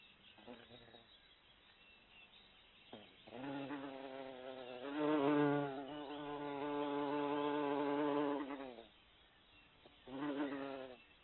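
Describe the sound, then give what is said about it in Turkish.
A bee buzzes in a droning, harmonic hum that swells and fades over several long passes, with a louder burst at the end. “Bee. Bal arısı. Biene.”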